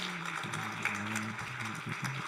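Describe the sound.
Audience applause at a congress as a speaker is welcomed: a steady, even patter of many hands clapping, with a few sustained low tones running underneath.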